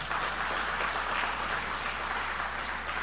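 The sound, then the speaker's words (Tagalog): Applause from a church audience praising God, a steady, dense wash of clapping that holds evenly for about three seconds with no voices above it. “Pwede bang palakpakan natin ang Diyos sa buhay?”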